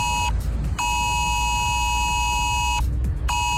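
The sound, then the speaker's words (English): A phone's emergency text alert sounds as a loud, harsh electronic tone in repeated bursts: a short blast, a long sustained one, then another starting, over a steady low rumble. “Well, Ireland could be getting an emergency text alert system which would warn us about things like extreme weather.”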